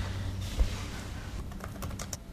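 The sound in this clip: A few soft, clicking keystrokes on a computer keyboard as someone tries to log on to YouTube, quiet over a low background hum and coming mostly toward the end.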